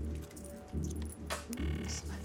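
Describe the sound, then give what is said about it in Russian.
Small change jingles and clinks as coins are dug from a pocket and laid out at a shop till, with several bright metallic chinks over a low steady hum. “роется в кармане, выкладывает мелочь.”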